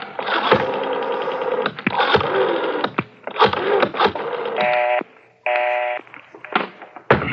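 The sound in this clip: A telephone being dialed, a 9 dialed for an outside line, with bursts of clicks and clatter and two stretches of steady electronic tone partway through.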